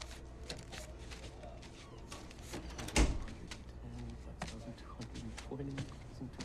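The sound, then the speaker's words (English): A door being closed as someone enters a room: a single dull thump near the middle of an otherwise quiet stretch, with a voice talking faintly. “Matt counts the money as Joey comes in and closes the door.”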